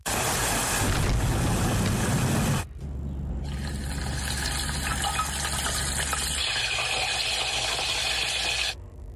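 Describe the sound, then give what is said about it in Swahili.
Heavy rain pours down outside a small shop, a loud, dense hiss that holds steady, then shifts to a slightly lighter wash partway through before ending abruptly. “Hii mvua inavyozidi kuongezeka, nimeona niziweke ndani kabisa. Manake naona ni mvua kubwa sana inanyesha.”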